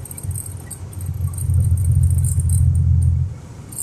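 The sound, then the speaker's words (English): A Hummer H3 drives past on a snowy road, its low engine rumble swelling for a couple of seconds, holding steady, then dropping away, with faint light high-pitched noise above. “Oh, this guy's driving one of those new H3s or whatever.”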